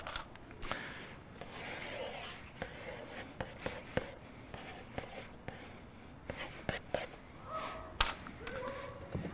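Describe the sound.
Pen strokes scratching across paper while a picture is drawn, faint rubbing sweeps punctuated by scattered light taps and thumps.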